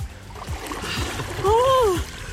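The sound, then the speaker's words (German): A splash as people jump together into ice-cold water, short and churning, with a voice crying out over the end of the splash and other voices around it. “3, 2, 1, los! Ah! Und im Wasser sind sie.”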